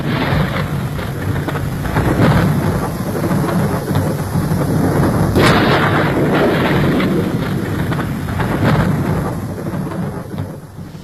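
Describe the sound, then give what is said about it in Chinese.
Radio drama thunderstorm effect with pouring rain: a dense, steady hiss of downpour runs throughout, while low thunder rumbles beneath it and one sharp crack breaks through partway along. “倾盆大雨冲刷了几分闷热，却冲刷不掉八零三的担忧”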